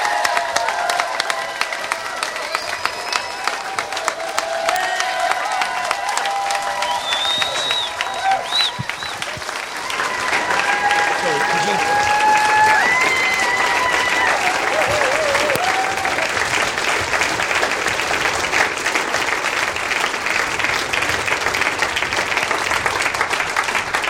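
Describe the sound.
An audience applauds to welcome a guest preacher at a church service. Long, continuous clapping with scattered voices mixed in grows slightly louder partway through and keeps a steady roar to the end.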